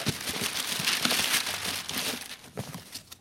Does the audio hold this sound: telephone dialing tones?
no